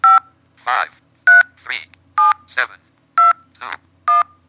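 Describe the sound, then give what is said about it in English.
Telephone keypad dialing tones: five short, bright beeps at an even pace, each followed by a voice reading out the dialed digit. “I'm going to just dial another number, a number. And as you dial, you hear it speak to you.”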